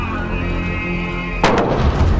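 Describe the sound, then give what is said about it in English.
Gunshots fired in Baghdad crack out in a brief, loud burst of sharp reports over a steady low hum, then give way to rough, ringing noise. “These are shots being fired in Baghdad.”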